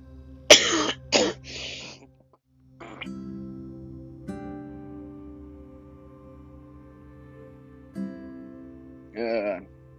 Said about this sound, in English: I keep on coughing, and it's like, really, I can't even help it. I can't stop coughing.